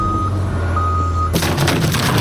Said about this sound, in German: wie viel Platz habe ich denn hinten noch mit dem Kran? Also jetzt keinen mehr. Das war die Wand vom Sportheim. Also gut, dann fahre ich wieder ein Stückle zurück.